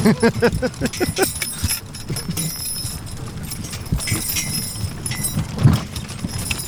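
Horse hooves clop as a horse pulls a wagon off the track onto bumpy ground near Laramie, Wyoming. Quick, distinct clops at the start give way to a rattling rumble with occasional knocks and jolts.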